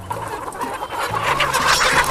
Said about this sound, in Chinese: 公鸡还是不要挑衅它了，对，公鸡太凶了，跟公鸡要咬人。